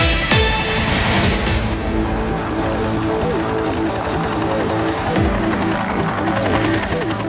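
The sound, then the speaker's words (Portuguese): Helicopter on a traffic-report flight, taking off and flying: a loud, steady drone of rotor and engine that holds evenly through the whole stretch with no break. “vamos subir? Helicóptero Manchete no ar.”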